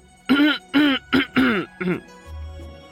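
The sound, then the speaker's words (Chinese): A voice actor in a dramatized story gives a run of light, voiced coughs and throat-clearing: five short, separate bursts in quick succession, each with a throaty vocal tone. “展昭轻轻地咳嗽了两声”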